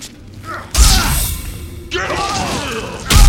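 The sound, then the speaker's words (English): Scorpion's spear attack in the fighting video game Mortal Kombat: three abrupt bursts of swooshing, thudding impact noise, the sharp strikes separated by short gaps and mixed with a bellowing voice. “Now, Scorpion's specialty, he has that spear that he shoots out of his hand and grabs the guy with. And you actually heard that Smoke had the same thing in Ultimate Mortal Kombat 3, but I think you'll hear that the spear”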